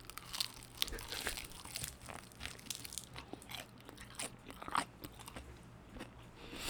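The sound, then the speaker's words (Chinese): Crunchy biting and chewing of chicken pieces during close-up eating: faint, irregular crackles and crisp bites with soft wet chewing, no talking. “哦，这个我最喜欢吃啊，不行，这个要留给我儿子，因为他只只只吃鸡腿。我先吃一块。”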